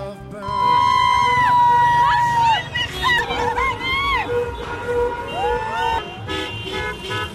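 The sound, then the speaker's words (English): Car horns and crowd noise in a street celebration in Iran after the nuclear deal announcement, with long, sustained horn blasts and shorter toots ringing over a babble of voices. “That is the sound of celebration in Iran with the announcement that the U.S. has worked out a deal driven by President Obama regarding their nuclear”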